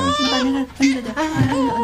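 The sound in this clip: A baby cries while being coaxed to eat rice broth, letting out about three strained, drawn-out wailing bursts with wavering pitch, fairly loud and tearful.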